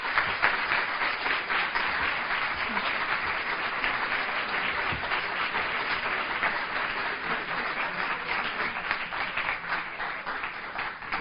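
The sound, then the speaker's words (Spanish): An audience applauds at a lecture event: dense, steady clapping is sustained for about eleven seconds at an even level, with no voices standing out. “yo creo que un fortísimo nuevo aplauso”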